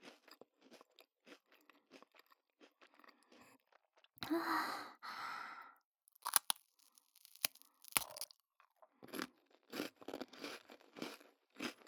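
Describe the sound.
Crunching and chewing of a cookie eaten with coffee: many sharp, crackly bites spread throughout, with a breathy, sigh-like exhale midway.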